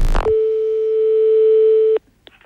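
Telephone line tone after a call is hung up: a short clunk, then one loud, unbroken mid-pitched tone lasting under two seconds that cuts off abruptly, followed by faint clicks.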